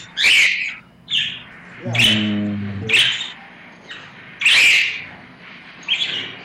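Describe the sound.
A bird chirps loudly and repeatedly indoors, sharp, high, bright calls bursting out about once a second across the whole stretch, with no voices.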